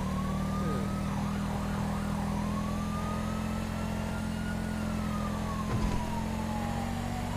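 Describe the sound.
A police car siren in a video game wails, its pitch slowly rising and falling over a constant low engine drone, with a brief thump near the end.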